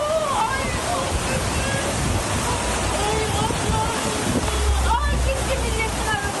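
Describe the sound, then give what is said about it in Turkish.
Rushing flood water roars from a stream that has burst its banks after a downpour in Yalova, sweeping chairs away from a coffeehouse. The loud, steady surge churns without pause, with faint voices in the background. “Sağanak nedeniyle dere taştı, vatandaşlar mahsur kaldı. Serkan abinin kahvede son durum. Dere patladı, sandalyeler gidiyor.”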